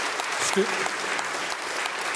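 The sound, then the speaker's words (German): Audience applause after a song, a brief stretch of steady clapping at moderate loudness. “Das ist auch sicher nochmal ein Applaus wert.”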